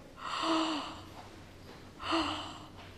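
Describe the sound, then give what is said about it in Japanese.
Two deliberately stopped yawns done as a throat-stretch exercise: each is a breathy inhalation with a short, low voiced note, cut off partway, separated by a quiet gap. “あくびを止める動作っていうのをちょっとやってみます。”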